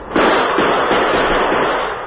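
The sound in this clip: Gunfire during an attack in a radio drama: a loud, dense, continuous crackling barrage of shots that bursts in sharply and holds nearly level to the end, with no talking.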